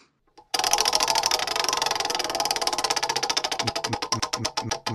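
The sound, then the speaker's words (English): A spinning prize wheel ticking against its pointer, the dense rapid clicks gradually slowing and spreading apart toward the end, loud and with nothing else over it. “So, shall we spin the wheel? I think we should. Spin.”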